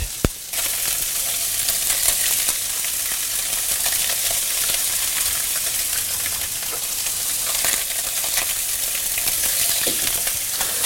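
Perch fillets fry in a hot pan with a steady, loud, crackling sizzle that starts right after a brief knock and continues unbroken.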